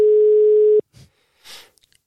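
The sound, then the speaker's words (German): Telephone ringing tone heard while calling a friend: one steady ring lasting under a second that suddenly cuts off, followed by a few faint clicks and rustles. “dann rufen wir einmal meinen guten Freund Kenneth an”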